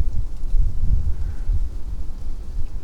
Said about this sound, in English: And so as we go down into the creek, we're just stepping into more wind.